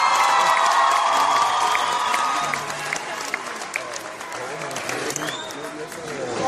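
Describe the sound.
An audience at a music performance applauds and cheers, with dense clapping and whoops that are loudest at first and then ease slightly while staying lively.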